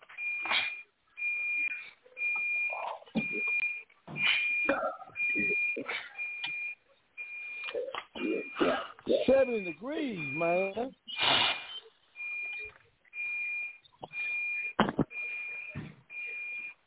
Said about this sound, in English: Nah, that's one of them alarms in this room that's broke. It go off when it want to go off